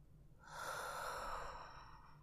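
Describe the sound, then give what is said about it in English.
A slow, deep breath out during a guided relaxation exercise, a soft airy rush that swells after a brief pause and then gradually tapers away, quiet and alone. “Breathe in deeply. And now exhale.”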